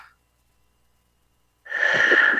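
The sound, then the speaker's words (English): A person takes a single deep breath in during a guided relaxation exercise; the airy inhale starts abruptly after a long silence and stays loud and steady to the end. “Now, we're going to take a deep breath in”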